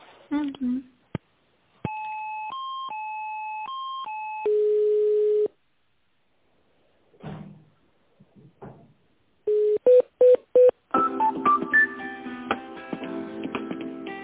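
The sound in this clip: Telephone tones as a call is put through: a two-pitch warbling tone alternates for a few seconds and ends in a steady tone. Later, short beeps and a busy electronic tone sequence follow.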